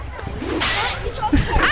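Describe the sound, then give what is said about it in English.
A towel being flicked at someone produces a sharp, whip-like snap within a busy burst of swishing cloth, with brief voice sounds near the end. “I'm sorry, it's just, I like flicking you with the towel.”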